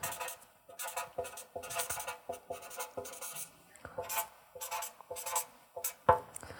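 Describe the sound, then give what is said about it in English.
A pen writing and signing on paper: many short scratchy strokes in an uneven rhythm, faint and close, with no voices. “I got it. No, well, I'm going to write it out first.”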